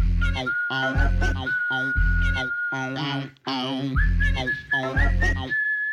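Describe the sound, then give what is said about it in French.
A person whistles a lively tune, clear high notes sliding and held over a steady musical backing, phrases repeating in a bouncy rhythm. “soudain j'ai l'audace de siffloter.”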